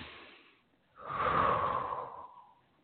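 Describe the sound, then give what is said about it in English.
Slow human breathing during a guided breathing pause: a soft, short breath followed by a longer, louder airy breath that swells and fades gently, with no talk over it. “Let's just breathe for a moment with that.”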